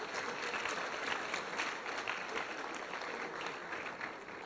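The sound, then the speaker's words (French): An audience at an École des Ponts master's programme event applauds the administrative and teaching teams with even, sustained clapping that stays steady to the end. “j'aimerais qu'on applaudisse toutes ces équipes administratives et pédagogiques qui font que ces masters peuvent tenir”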